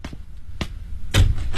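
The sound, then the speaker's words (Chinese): Knocking on the door of a home in a residential compound: a few dull, spaced thuds about half a second apart, the later ones heavier, with no voices. “来到了胡素萍的家新龙小区，敲了敲门，她果然在家。”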